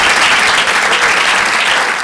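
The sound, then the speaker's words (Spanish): A church audience applauds in praise during a sermon, giving a loud, dense, steady burst of clapping that holds at an even level for two seconds. “Démosle un buen aplauso al Señor.”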